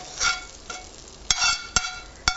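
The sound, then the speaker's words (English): Onions are added and stirred into tomatoes in a pot on the stove. A soft, steady sizzle runs underneath, broken by several sharp clinks and scrapes of a utensil, with no talk. “Since my kale is done, I'm going to go ahead and add my onions in with my tomatoes.”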